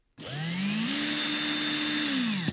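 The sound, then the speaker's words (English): An electric drill spins up and runs for about two seconds with a steady high whine. Its pitch steps up slightly early on, then holds before it cuts off abruptly. “Did you guess it? It's a drill.”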